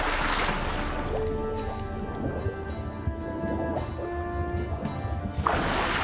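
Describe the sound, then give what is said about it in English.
Water splashing as a video game character dives in, with a broad rushing burst at the start and another at the end. Steady electronic game tones sound in between. “Seems I'm in for a swim. Yep. Alright, so we found the passage. Let's dive.”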